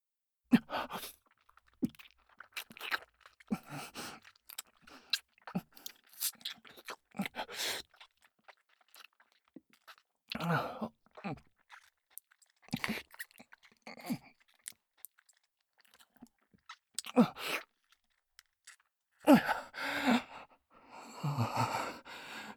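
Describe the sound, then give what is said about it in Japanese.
Soft, wet kissing and lip-smacking sounds come in many short, quiet bursts separated by near-silent gaps, with no talking. “キスって気持ちいいんだね。もう一回いいかな。”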